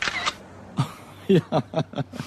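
A camera shutter snaps as a photo is taken, a few short, crisp clicks and mechanical bursts, fairly quiet.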